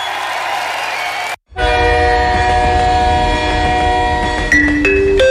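A train arriving at a station cuts in after a short gap as a loud, sustained horn over a low rumble, with the tones shifting briefly near the end.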